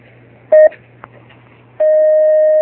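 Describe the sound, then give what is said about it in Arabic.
Telephone line tones as a call connects on a radio phone-in: a short steady beep, a brief click, then a long unbroken tone, all over a low electrical hum with no talk. “نستأذنكم فضيلة الشيخ باستقبال أولى اتصالاتنا.”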